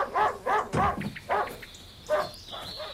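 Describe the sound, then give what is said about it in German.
A dog barking in a quick series of short, high, yelping barks mixed with whimpers, fairly loud, with a thin high whine running under the later part. “Ich hoffe, es ist Ihr Hund. Mitnehmen werde ich den Köter nämlich bestimmt nicht mehr.”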